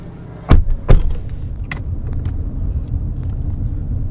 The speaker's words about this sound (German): Das Auto hält vor einem Gebäude.